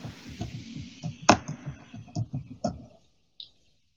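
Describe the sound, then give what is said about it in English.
Keys on a computer keyboard are typed with a few sharp clicks, some under talk in the first half and then alone, with a final isolated click after a pause. “Now I'm going to type in change voice.”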